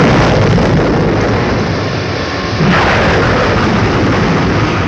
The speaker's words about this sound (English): It's coming. It's certain. It will be soon. The countdown has started. Fire!